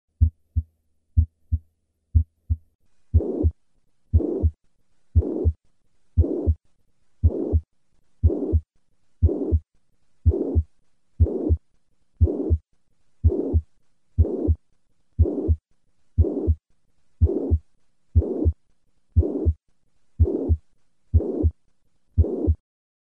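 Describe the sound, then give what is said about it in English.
Heart sounds from a patient with mitral regurgitation: a few soft normal beats, then many louder, evenly spaced beats, each carrying a high-pitched blowing murmur, in a steady regular rhythm with no talking. “Listen to a patient with mitral regurgitation. I will start with 3 normal beats and then add the murmur.”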